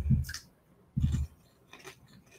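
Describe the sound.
Crisp crunching of sweet beet popcorn being chewed: three short, crackly bursts of mastication separated by quiet pauses, with no talking.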